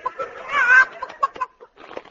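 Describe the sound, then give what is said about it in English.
Chicken-like clucking from a horse named Leghorn: one loud, drawn-out squawk comes first, then a series of short, sharp clucks with brief gaps between them. “Steady, Leghorn. Steady. Leghorn? That's a funny name for a horse. Yes, well, he has a mental block. He thinks he's a chicken.”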